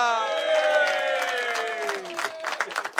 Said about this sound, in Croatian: Molim vas, veliki aplauz za Furija Radina!